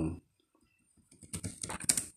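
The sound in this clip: Typing on a computer keyboard: after a short low thump and a quiet gap, a rapid, dense patter of key clicks builds and keeps going, moderately loud, with no talk over it.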